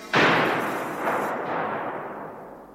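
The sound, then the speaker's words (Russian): A single rifle shot cracks out loud and sharp, then trails into a long rolling rumble that swells briefly once or twice before slowly fading, with no voices present. “Откуда выстрел?”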